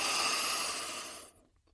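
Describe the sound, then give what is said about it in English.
A deep, slow breath let out as a soft, breathy rush of air that holds steady and then tapers into silence, heard alone without talk. “Let's take a deep breath.”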